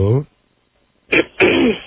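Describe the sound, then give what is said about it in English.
Throat clearing from a caller over a phone line: two rough, gravelly bursts in quick succession after a short voiced sound and a pause, with a thin, band-limited tone. “Yes, clear that throat.”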